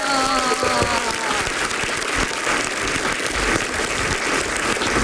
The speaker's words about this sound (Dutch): Eén applaus voor de winnaar,